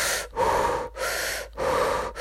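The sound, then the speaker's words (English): Rapid yoga breathing, with forceful inhales and exhales as the hands are pulled up and flipped over. Four loud, airy breaths come in a quick, even rhythm, each cut off by a brief gap. “you inhale and you pull the hands up, and you exhale, flip the hands over, and exhale it out.”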